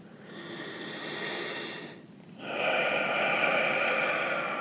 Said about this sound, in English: Let's take our last breath in, focusing on the inhalation for the duration and completely through the exhalation, focusing on the sensation of breath in our body.